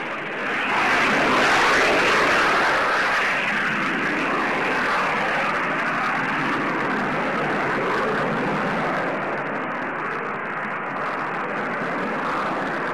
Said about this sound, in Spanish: Ese es el bombardero.